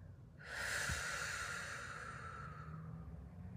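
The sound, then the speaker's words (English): Gentle exhale of breath in a guided breathing exercise: one long, soft, airy breath that begins fairly abruptly and slowly tapers off, with no talking. “And when you're ready, just gently exhale your air.”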